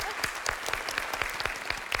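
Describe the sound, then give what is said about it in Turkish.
Applause from a small group at a quiz game: a fairly faint patter of claps with a regular, pulsing rhythm, steady for about two seconds. “Olur, tamam, ikinizi de alkışlıyorum.”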